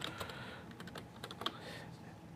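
Typing on a computer keyboard while entering a password: faint, quick keystrokes come in an uneven run of light clicks, with one sharper tap near the middle.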